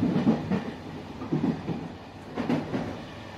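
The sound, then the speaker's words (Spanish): A train winds along its rails, heard from a passenger's sleeping compartment. The wheels give a low rumble with rhythmic clickety-clack bursts that come in groups about once a second over a steady hum. “me dedico un buen rato a contemplar cómo el tren serpentea desde la ventana”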